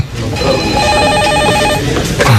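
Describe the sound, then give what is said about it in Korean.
A telephone ringing with a bright, steady electronic trill that lasts about a second and a half and then stops, standing out over low background noise. “영선 씨가 일을 하고 있는데 전화가 왔죠.”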